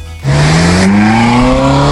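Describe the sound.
A car engine, the car offered as a lottery prize, revs hard after a sudden start, its loud tone climbing steadily in pitch and holding strong to the end.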